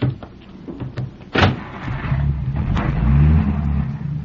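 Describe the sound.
A car driving off: a sharp thud early on, then a low engine rumble that builds and holds, steadily louder toward the end.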